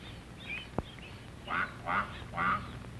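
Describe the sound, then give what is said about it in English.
Quacking of a mother duck calling her ducklings: three distinct nasal quacks in steady succession after a single sharp click, over a faint, quiet background. “This duckling will get lost, but he hears his mother call and runs to catch up with her.”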